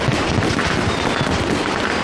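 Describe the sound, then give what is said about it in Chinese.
Fireworks and firecrackers bursting at a night-time New Year celebration in Shanghai, a dense, loud, continuous crackle and booming without pauses, with no talk. “你看那个烟花，像不像一朵散开的花朵？是不是很好看？”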